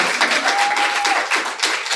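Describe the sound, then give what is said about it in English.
Audience applause, a sustained and loud wash of many hands clapping that continues evenly for a couple of seconds. “So thank you guys very much. Hey, you can clap.”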